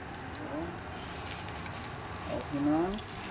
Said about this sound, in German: So, jetzt lassen wir die in Ruhe erstmal braten von einer Seite und von der anderen.